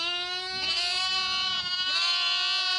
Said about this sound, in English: Lambs, then silence.